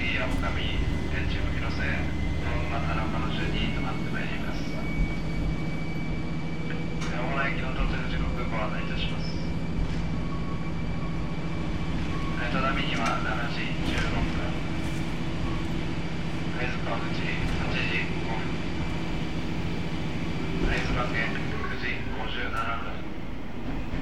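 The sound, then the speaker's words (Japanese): Local train on the Tadami Line running, a steady low engine drone and rumble that holds throughout, with voices and faint higher tones over it. “只見線普通列車の会津若松行きです。”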